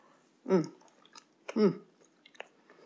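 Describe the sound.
Chewing on a donut topped with salty caramel icing made with regular butter. Two louder moist bursts stand out among softer wet clicks and smacks.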